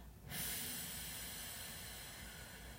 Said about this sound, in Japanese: では笑顔にしてゆっくり吸いましょうはいではゆっくり吐きます